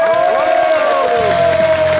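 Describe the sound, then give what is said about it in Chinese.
Audience applause and cheering welcome a young crosstalk (xiangsheng) comedian onto the stage, with dense, steady clapping throughout. “好，那咱们就接下来用热烈的掌声。有请青年相声演员李火炎闪亮登场。”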